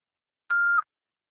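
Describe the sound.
An answering machine beep: a single short electronic tone held at one steady pitch for about a third of a second, clear and alone against silence.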